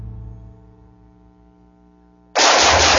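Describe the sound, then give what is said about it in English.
Gunfire bursts out suddenly and loudly after a low, quiet hum, continuing as a dense, sustained roar to the end. “Woo, nice shooting.”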